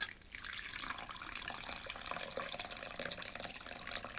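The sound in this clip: Water pours into a bowl to soak flour, making a faint, continuous splashing rush with no breaks.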